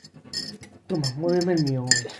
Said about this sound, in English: But this is like a little budgie today that is stirring coffee like his life depends on it.